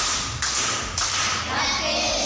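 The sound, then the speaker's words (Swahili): Children at a primary school applaud with a few sharp, evenly spaced claps over a murmuring background. “Makofi kwa shangazi.”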